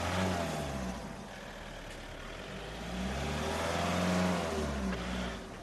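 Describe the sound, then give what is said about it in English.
Engines rumble on a petrol station forecourt as cars idle and pull through, a steady low drone that swells slightly midway, with no voices. “Well, as you can hear at this petrol station, there is still some petrol flowing, although half of the pumps are empty, and we're told that the rest will be empty by the end of the day, assuming no delivery is made.”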